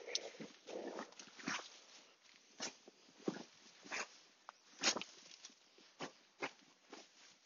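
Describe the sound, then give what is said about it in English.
Boot kicking up undergrowth off a path to bury dog poo: many short, scuffing rustles and crunches of disturbed foliage in an irregular rhythm, moderately loud, with no talk. “That's the sound of a man kicking up undergrowth to bury his dog shit.”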